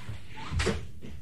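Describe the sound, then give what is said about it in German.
Knocking at a door, heard as one brief, muffled burst of knocks at moderate loudness over a quiet, steady background. “als es an seine Tür klopfte.”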